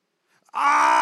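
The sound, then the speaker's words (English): A preacher imitates prayerful groaning with his voice. After near silence, a single wordless, moaning tone sets in abruptly and holds steady and loud to the end. “Holy Spirit intercedes with groaning. Yes, it's just a noise. It ain't even got words. You ever been in that place of prayer where you just groaning?”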